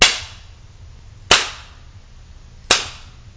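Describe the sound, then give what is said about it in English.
Three sharp slaps of a spanking on skin, spaced roughly evenly about a second and a half apart, each a loud, crisp crack that dies away quickly, with no voices. “Watching you recoil like that. Seeing your young skin slowly turn red where I hit you.”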